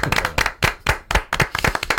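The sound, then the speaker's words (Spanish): Audience applause greeting a comic-book author's introduction, a dense burst of loud, rapid clapping from many hands with irregular peaks, no voices over it. “Un aplauso para Paco Roca.”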